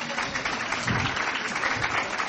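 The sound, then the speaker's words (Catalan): Applause for a contestant: a moderately loud, dense patter of many hands clapping, steady throughout with slight swells. “Un aplaudiment per ella.”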